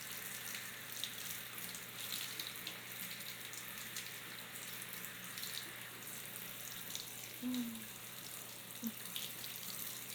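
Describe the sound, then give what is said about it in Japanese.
Running water rinses over a body in a steady, continuous rush with faint splashing and no gaps, moderately quiet throughout with no talking. “このままもう一度体も流しちゃいますね。”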